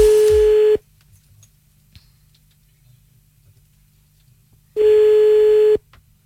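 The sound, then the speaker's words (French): Ringback tone on a telephone call back: two long, steady electronic tones, the first cut off at the start and the second about a second long, separated by a silent gap of roughly four seconds. No dialing is evident. “On avait donc rappelé une deuxième fois. C'était parti.”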